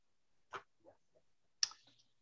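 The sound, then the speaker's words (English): Computer mouse clicks while right-clicking to take measurements on an on-screen map: a few crisp, faint clicks at irregular intervals, with quiet gaps between them. “if you right click on the screen, you can actually do a measurement from the point of measuring.”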